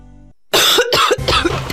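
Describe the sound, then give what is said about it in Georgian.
Harsh coughing from a sore, irritated throat in a throat-lozenge commercial: three loud, rough coughs in quick succession. “მაშინ როდესაც ხმა ჩაგეხლიჩა, ხელი გტკივა და გახველებს”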